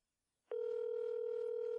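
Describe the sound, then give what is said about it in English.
A telephone ringing tone on an outgoing call: after a brief silence, a single steady electronic tone comes in and holds unbroken to the end, faint and alone. “Answer the phone, you son of a bitch.”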